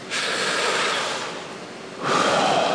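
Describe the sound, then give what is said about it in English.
A deep breath taken during a guided prayer meditation: a long, airy rush of breath, a quieter pause, then a second breathy surge. “I'd just like to invite you to lay your hand on your heart and to close your eyes. Take a deep breath”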